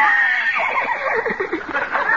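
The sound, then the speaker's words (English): A horse whinnies in a long, shaky, wavering call that holds for about two seconds at a fairly strong level. “Come on, horsey, come here. Open your mouth. Open up.”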